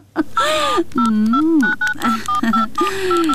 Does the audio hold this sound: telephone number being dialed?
yes